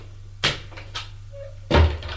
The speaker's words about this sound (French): Le vieux ferme la porte